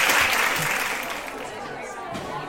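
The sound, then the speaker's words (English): An audience files out after a book talk with ice cream and treats, filling the room with clapping and crowd chatter. Voices mix in the murmur, which gradually fades a little. “As you can hear from the background noise, we've got the audience filing out, enjoying some Bailey's ice cream and treats.”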